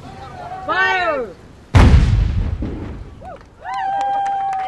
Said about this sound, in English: Every ship with guns fires them along the way, and ours are by far the biggest and baddest.